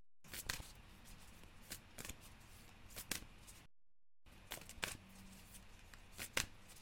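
A deck of cards shuffled during a spiritual card reading makes quiet, repeated riffling snaps in an uneven rhythm, broken by a short silent pause midway.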